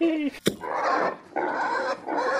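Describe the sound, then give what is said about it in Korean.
A pig oinks and squeals in three long, harsh, noisy bursts separated by short gaps, with a sharp click near the start. “아, 이놈의 돼지 새끼가 왜 이렇게 움직인지야.”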